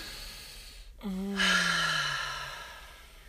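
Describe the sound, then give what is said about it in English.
A deep breath is drawn in and let out as an audible, slightly voiced sigh. The exhale slides gently downward in pitch and fades over about two seconds, with no talk. “Let's all take a deep breath. Oh my gosh, this feels amazing.”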